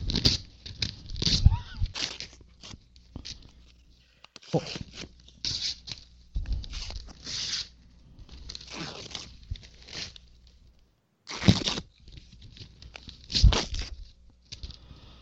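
Tearing, a string of rough, crackling rips of varying length broken by short pauses, with crinkling rustles between them, mostly soft, with a few louder sharp tears.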